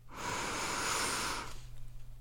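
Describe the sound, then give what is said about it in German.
A single long, deep breath drawn in, a steady airy hiss lasting over a second that then drops away, leaving a faint low hum underneath. “und dann atme. Einmal tief ein”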